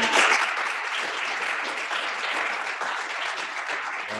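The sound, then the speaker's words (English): Audience applause from a crowd clapping for themselves and a helper, a dense, even wash of many hands that holds steady and loud throughout without any clear break. “clap it up for yourselves. Shout out to Halima. Clap it up for Halima.”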